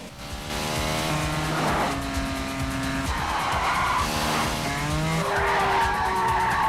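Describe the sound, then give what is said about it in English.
A high-speed highway chase, a motorbike and a pursuing car weaving through traffic: loud engines rev upward in repeated rising sweeps, with tire squeal and rushing passes, continuous throughout. “With Santiago following close behind, they head onto a highway, weaving in and out of traffic at high speed.”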